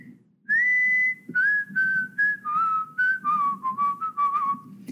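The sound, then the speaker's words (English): Whistled riff from a song playing as music: a string of clear, sustained notes that step gradually downward in pitch, loud and bright over a faint low background hum. “I heard the whistling riff.”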